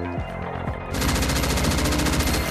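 Loud gunfire breaks in after a brief quieter stretch, then continues as a dense, rapid rattle of many shots, like an automatic weapon firing without pause.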